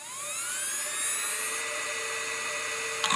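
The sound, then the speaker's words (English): A spinning hard drive in a 2005-era PowerBook laptop spins up, its thin whine rising in pitch and then settling into a steady, high, faint hum, with a brief tick near the end. “my 2005 era PowerBook would sound kind of like this.”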